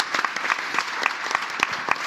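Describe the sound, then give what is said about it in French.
An audience applauds: a dense, steady patter of many hands clapping, fairly loud and even throughout the brief stretch, with no voices standing out. “On peut applaudir ce gourou qui est Sylvain, l'anti-gourou qui est Sylvain Palais.”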